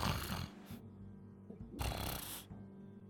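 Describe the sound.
A person snoring: two drawn-out, rasping snores with a quieter pause between them, faint overall and with no talk.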